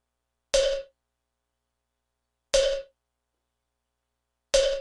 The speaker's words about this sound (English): So to begin, we're going to set the metronome super slow, say 30 beats per minute, like this.